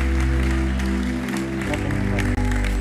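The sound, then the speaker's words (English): A church audience cheers and applauds as people are welcomed home at a gathering, with a continuous wash of clapping over a strong, steady low droning tone and a brief dip near the end. “Let's cheer them as they come. Woo! Welcome home.”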